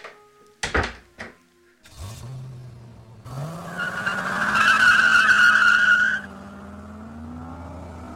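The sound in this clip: Car tires squeal in a long skid as the engine revs hard and the car speeds away on a dusty road. A few sharp knocks come first, then the engine roars with a steady screech before settling into a fading hum.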